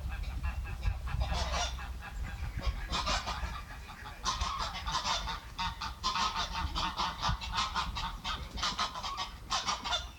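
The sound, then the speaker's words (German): Ducks squabbling outdoors on a windy day: many harsh, overlapping honking calls in rapid bursts over a steady low rumble of wind that persists throughout. “Enten haben sich auch gestritten. Und es war auch sehr windig.”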